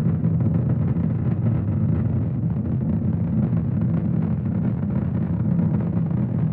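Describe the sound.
Low, continuous rumble of a rocket climbing on its Merlin 1D engines during the launch of the Psyche metal-asteroid mission, a dense, unbroken roar holding steady from start to end.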